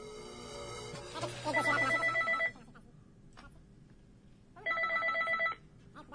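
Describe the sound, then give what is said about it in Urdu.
Telephone ringing with an incoming call: two bursts of bright electronic trilling, each about a second long, separated by a quieter pause of roughly two seconds. “معذرت, میں غزل پلے کرنا چاہ رہا تھا, but ایک اور کال درمیان میں آ گئی, تو میں یہ کال کو لیتا ہوں.”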